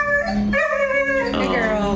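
Dogs barking and howling at an animal shelter, a dense, unbroken chorus of sustained harmonic howls mixed with barks that fills the whole moment at steady loudness.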